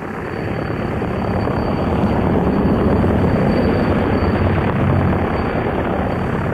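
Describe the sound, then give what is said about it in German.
A C-43 heavy transport aircraft flies overhead. Its loud, dense engine roar builds in the first second, then holds steady and thrumming throughout, with no voices. “Den Ton kenne ich. Ist ein C-43 Überlasttransporter. Bin das Ding selber mal geflogen. Macht den Lärm wie der jüngste Tag.”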